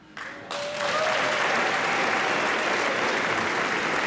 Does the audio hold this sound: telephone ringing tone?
no